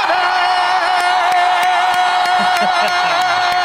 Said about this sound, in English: This is our official, this will be going forward, our official guest welcome theme, but I think the composer should see our first reactions to it.